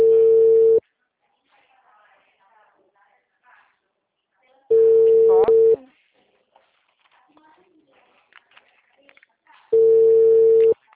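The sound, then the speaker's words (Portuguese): A telephone line signal, heard as three long, steady, mid-pitched tones spaced several seconds apart, with faint low sounds in the gaps. “O número discado não está atendendo. O número está ocupado.”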